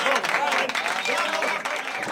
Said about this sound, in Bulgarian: Да, това са аплодисментите за юбиляра.